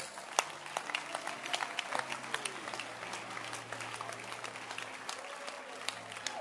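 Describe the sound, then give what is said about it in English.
A church audience clapping hands during a sermon: many distinct, uneven claps at a brisk pace, fairly soft overall with a few sharper strikes. “All right, then clap your hands.”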